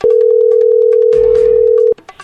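A telephone ringing tone as a call goes through: one long, steady mid-pitched tone holds for nearly two seconds over faint background sounds, then cuts off abruptly, leaving a few soft noises.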